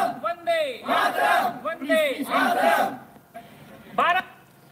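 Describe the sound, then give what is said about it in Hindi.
A crowd shouts patriotic Indian slogans in several loud bursts separated by short pauses, the voiced chants strongly harmonic, with a final short burst after a quieter gap. “चलिए साहब लोगों ने नारे भी लगवा दिए बेचारे मजबूरी लगाना पड़ा होगा”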